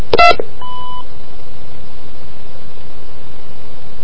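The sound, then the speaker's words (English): A single short telephone keypad tone marks pressing 2 on a hotline menu. It sounds once at the start, followed by a faint brief tone and then a low steady hiss. “I'm going to press 2.”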